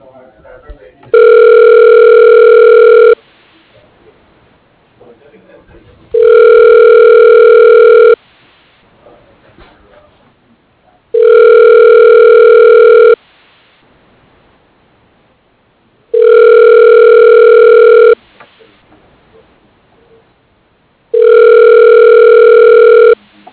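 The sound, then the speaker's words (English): A telephone rings out on a placed call: five long, steady buzzing ring tones of about two seconds each, separated by even pauses with faint background noise. “Okay, dialing.”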